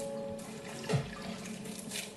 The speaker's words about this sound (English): we head east through the water and then north, and those steps you can hear.